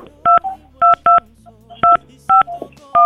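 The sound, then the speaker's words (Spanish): Six telephone keypad tones beep in an uneven rhythm as a number is dialed. Each is a short, bright electronic chirp, with faint low sounds between the presses. “Pues vamos a felicitarlo. Vamos a marcarle. Esperemos que sí nos conteste.”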